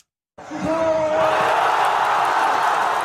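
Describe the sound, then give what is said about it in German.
Thousands of football fans roar at a public viewing in Gaza City as Egypt takes the lead against Argentina in a World Cup match. After a brief silence, a loud, dense crowd noise swells and holds steady. “Das ist der Sound der Hoffnung mitten im Gazastreifen. Ägypten geht im WM-Spiel gegen Argentinien in Führung. Tausende Fußballfans beim Public Viewing in Gazastadt sind völlig aus dem Häuschen.”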